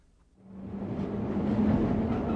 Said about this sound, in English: Come, we'll go on the Underground Railway. Bet you've never been on that.